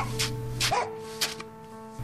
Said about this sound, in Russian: Так сделай, вновь хамхамит пес, чей ум короток, длинен хвост.